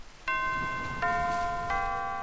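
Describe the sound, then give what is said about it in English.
A front doorbell at a house rings with three bright chime notes, each struck cleanly and left to ring on steadily into the next, over a faint background hiss. “One that dared you to ring the front doorbell. I dared.”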